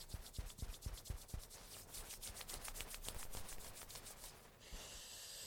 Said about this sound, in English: Let's rub our hands together at the heart center.